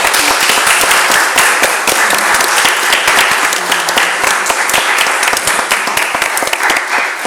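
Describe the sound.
Loud, sustained applause from an audience at a poetry festival discussion, honoring a poet who has just won a literary prize: a dense, even wash of many hands clapping for over seven seconds.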